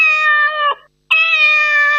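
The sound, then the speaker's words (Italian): A cat meows twice: two long, loud, tonal meows of under a second each, separated by a brief silence, with no other sounds. “senti chi miagola, non senti chi parla”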